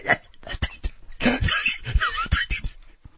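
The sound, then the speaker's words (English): A voice imitates Muttley, the cartoon dog, with his wheezing snicker. Raspy, breathy wheezes and yipping catches come in quick uneven bursts. “Muttley, Snidely Whiplash's dog, yes. Right? Yes. Yeah, that's what he sounds like.”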